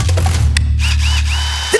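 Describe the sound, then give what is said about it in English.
A Makita multi-tool runs with a steady, low buzzing drone that holds level for almost two seconds, then cuts off with a short click. “Oh, the Makita Multi-Tool.”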